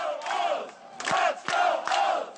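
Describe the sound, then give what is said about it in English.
A crowd outside a baseball stadium in Baltimore cheers and chants in rhythmic swells with short pauses between them, loud and without talk over it. “When you're rounding the bases and the only cheers you hear from outside the stadium, it's a weird feeling.”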